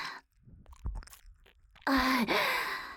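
Jelly being eaten: a few soft, wet chewing and biting sounds, followed by a loud, breathy vocal sound with a dipping pitch.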